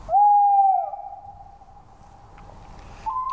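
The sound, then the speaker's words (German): A tawny owl hooting at night: a loud, hollow hoot slides into a long, fading, wavering note, then a fresh note starts just before the end. “Ja, das ist eine Eule. Genau. Das ist ein Waldkauz, so heißt diese Eule.”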